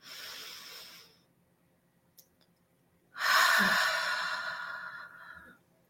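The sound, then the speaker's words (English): A slow, deep breath during a guided relaxation exercise: a soft, airy breath, a pause, then a longer and louder sighing exhale that fades away gradually. “And take a nice deep breath with me and let it out.”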